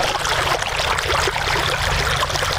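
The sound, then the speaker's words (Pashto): Well water is pumped up by solar-powered machines for farmers in Sayed Abad district, Maidan Wardak province, making a steady, continuous splashing and gurgling flow with no pauses. “دا د میدان وردګو ولایت په سید آباد ولسوالۍ کې د جوړو څاګانو اوبه دي چې بزګران یې د لمریزې هندارو او ماشینونو په مرسته راپورته کوي.”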